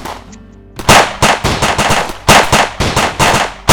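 Gunfire in a radio drama battle scene: many loud, sharp shots in rapid, uneven bursts follow a brief quieter opening, with no talk.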